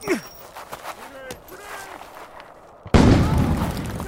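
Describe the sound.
A grenade explodes during a firefight with shooting from guard towers: a sudden, loud, broad blast bursts in near the end and its roar carries on, after a few seconds of quieter, scattered sounds.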